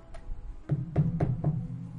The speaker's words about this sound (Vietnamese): cửa lại truyền tới tiếng gõ nhẹ nhẹ